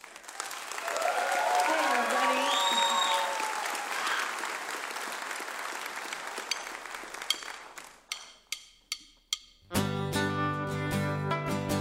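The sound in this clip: Audience applause welcoming a performer back to Mountain Stage, a loud, dense wash of clapping that holds for about eight seconds, then thins to a few scattered claps before music begins.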